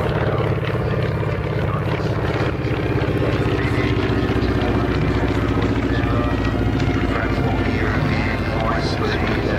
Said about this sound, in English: That's the Southern Knights doing their formation.